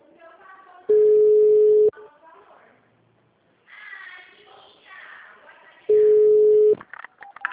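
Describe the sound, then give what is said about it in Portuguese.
Two long, steady, mid-pitched telephone beeps sound while a call to a city hall is being transferred, separated by a stretch where a voice talks between them. “Aguarde um momento. Estamos transferindo a sua ligação.”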